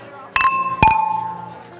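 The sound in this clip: Glasses clinking together in a toast: two bright clinks about half a second apart, each leaving a clear, high ringing tone that slowly fades.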